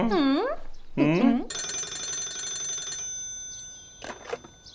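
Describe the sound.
A telephone bell rings in one loud, shrill, sustained burst after a short spoken phrase, then fades into lingering tones, with a few faint brief sounds at the end.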